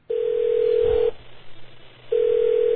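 A steady single-pitched telephone line tone as a call to someone's mother is placed, sounding in two one-second bursts separated by a one-second pause.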